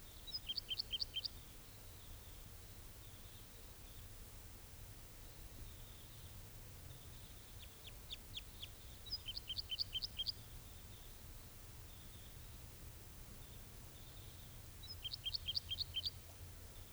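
Type 2 birds call in three faint clusters of rapid high chirps, separated by quieter stretches of softer calls. A male is perched in a dead tree. A low, steady background hiss runs underneath.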